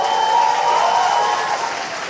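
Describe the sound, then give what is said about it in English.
A conference audience applauds Brazilian President Lula's speech on environmental protection with a dense, sustained roar of clapping that eases slightly toward the end. “He said to great applause, Brazil is back, back in being a leader in environmental protection.”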